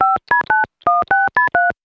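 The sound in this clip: Keypad tones from a time machine being dialed: seven short, clean dual-pitch beeps in quick succession, with a slightly longer pause after the third, heard alone.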